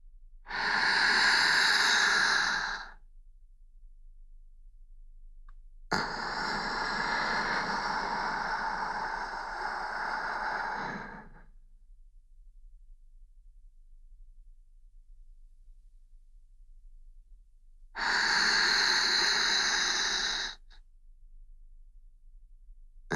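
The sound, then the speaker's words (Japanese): Slow, deep breathing, with three long, airy breath sounds separated by quiet pauses. The middle breath is the longest and softest, and the other two are fuller. “深呼吸をしてみましょう。私に合わせて、ゆっくり息を吸って。”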